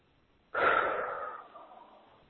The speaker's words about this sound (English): take a nice deep breath